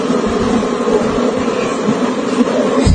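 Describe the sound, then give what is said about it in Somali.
Honey bees buzzing at their hive on a valley farm, a dense, steady, loud hum that holds unchanged throughout. “shiniga waa ujeeda saay ugu jirto shiniga dhuwaaqiisa waa maqlaysaa”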